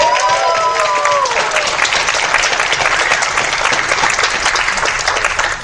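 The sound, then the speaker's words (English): Audience applause at a contestant game event, dense clapping from many hands that stays loud and even for the whole stretch. “Round of applause”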